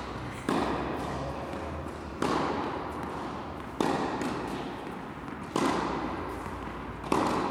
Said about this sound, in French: Bruit des balles pendant un cours de tennis.